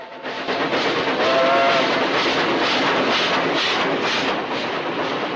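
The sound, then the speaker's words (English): A locomotive speeding along a new railway track through countryside, a loud, steady rumbling roar that swells in at the start and carries a faint repeating clatter. “The locomotive builds up speed and is soon making its way along the new track, cutting through the countryside.”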